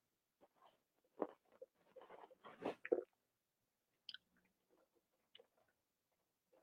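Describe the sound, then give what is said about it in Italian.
Someone takes a drink: a short cluster of soft gulps and wet swallowing sounds, followed by a few faint, scattered clicks and near silence. “tanto ne approfitto e bevo”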